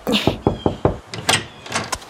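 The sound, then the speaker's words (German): Knuckles rap on a blue door in four evenly spaced knocks, followed by a few more irregular thuds and rattles. “Und da ist die blaue Tür. Na, ich gehe mal klopfen.”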